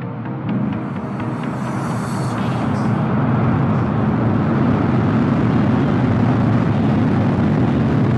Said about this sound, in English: Ignition, liftoff.